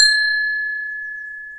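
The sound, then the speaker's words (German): A doorbell rung at the gate of a wildlife station gives a single bright, high chime that rings on clearly and slowly fades away, with nothing else heard. “Und jetzt klingeln wir mal.”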